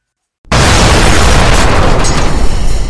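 A shell explosion as it strikes an artillery gun: after a brief silence, one sudden, very loud blast erupts and continues as a dense, roaring rumble until the end, with no voices.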